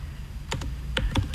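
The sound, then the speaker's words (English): Typing on a computer keyboard: a few quick, crisp key clicks in an uneven rhythm over a low, steady background hum. “I'm just typing it in.”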